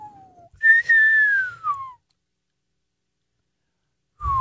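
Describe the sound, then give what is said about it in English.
A person whistles an old-timey catcall: a short low note, then a longer, brighter high note that glides downward. Silence follows, and another whistled note begins just at the end. “Okay, that's an old-timey cat call.”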